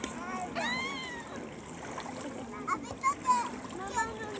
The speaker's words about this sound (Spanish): ¡Agua! Ya está, ya está. No me eches más. No me eches más.